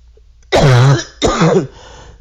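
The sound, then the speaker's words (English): Two harsh, voiced coughs with a throaty, clearing quality, the second shorter than the first, each loud and alone against a quiet background. “if you hear me coughing”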